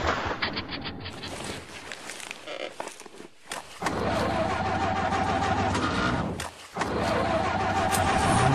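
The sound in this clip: A car engine sputters and struggles, a dense rough rumble that cuts out briefly twice before rumbling on, loud with no voices.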